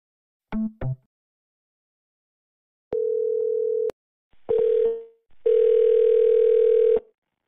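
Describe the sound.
Telephone line tones follow an automated line disconnecting a prank call to an after-hours plumbing and heating line. Two brief blips come first, then three steady tones, the last the longest.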